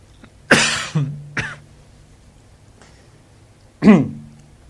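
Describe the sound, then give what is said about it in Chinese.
Coughing from someone in a group sitting in quiet meditation: a quick burst of two or three harsh coughs, a pause, then one more loud cough, each sharp and breathy against near silence. “大家身體不好，有點咳嗽。”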